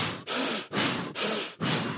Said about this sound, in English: So you're going to do 30 to 40 of those, you know, short burst breaths. And so you're going to be like,